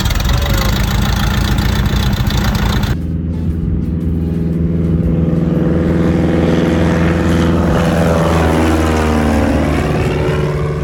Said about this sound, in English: I got to go on a prop plane, which scared the hell out of me.